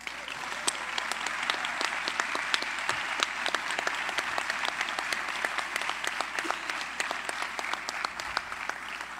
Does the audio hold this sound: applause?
yes

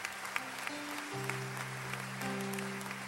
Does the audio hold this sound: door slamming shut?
no

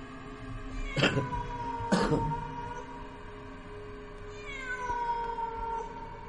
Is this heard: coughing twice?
no

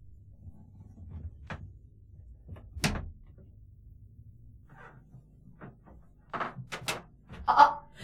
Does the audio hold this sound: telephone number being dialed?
no

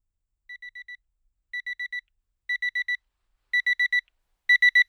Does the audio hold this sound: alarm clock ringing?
yes

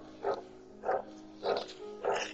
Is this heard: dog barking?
yes

